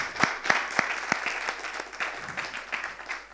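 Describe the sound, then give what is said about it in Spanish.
Applause from a church discipleship group's audience: a steady wash of clapping with a few sharper, evenly spaced claps standing out. It is moderately loud, with no talk over it. “Y también quiero que ellos tengan un aplauso. Pero más fuerte.”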